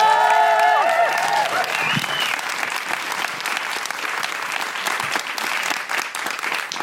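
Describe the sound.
Audience applause welcomes a comedian to the stage at a comedy show: a loud, dense wash of clapping that stays steady and full, after a voice is briefly heard at the very start.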